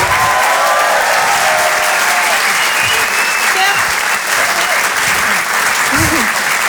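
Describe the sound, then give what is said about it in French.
Audience applause at a live comedy club show on a theatre stage in Paris. Dense, loud, steady clapping runs throughout, with scattered shouts rising from the crowd near the end. “Faites du bruit s'il vous plaît pour Nash.”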